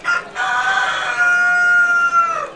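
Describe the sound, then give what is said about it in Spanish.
A rooster crowing: one long, loud, strained crow with a rich harmonic tone, heard alone and trailing off at the end. “haupe tebo petein gallo o sapukai”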